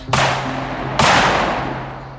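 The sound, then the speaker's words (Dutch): Two sharp blank shots from a weapon mounted on an off-road vehicle during a NATO military exercise, roughly a second apart. Each is a loud crack with a long, decaying rumble, over a steady low hum. “En die vuurde aanhoudend kogels. Alleen geen echte kogels, maar lege hulzen.”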